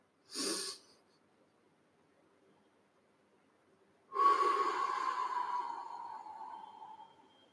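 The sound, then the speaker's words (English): Slow breathing in through the nostrils: a short, breathy burst comes first, then after a pause one long, steady inhale of about three seconds, with a soft airy hiss and a faint whistling edge. “When you breathe in, what you need to do is count till four. Very, very slowly breathe in.”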